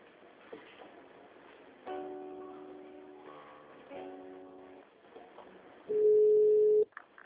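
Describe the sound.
Telephone tones sound while a call is transferred: two stretches of layered electronic tones, then a louder single steady beep lasting about a second that cuts off abruptly.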